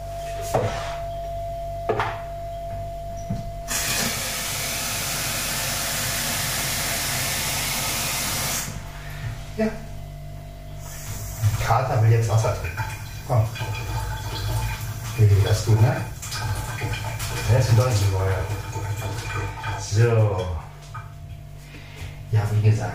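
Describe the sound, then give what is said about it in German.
Coffee being made: a few clicks and clatters, then a long, steady hiss of steam or spray lasting about five seconds, followed by knocks, clinks and talk. “Also werde ich mir jetzt noch einen Kaffee machen.”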